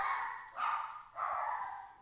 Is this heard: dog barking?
yes